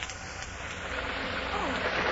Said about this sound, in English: A heavy rain riding the wings of an early November gale lashes down on the sleeping city.